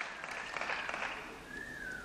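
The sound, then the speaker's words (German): Faint applause mixed with whistles follows Hungarian Prime Minister Viktor Orbán's speech, a soft, even wash of clapping with a thin, high whistle tone coming through toward the end. “sagte Viktor Orbán und erntete am Ende seiner Rede Applaus mit Pfiffen”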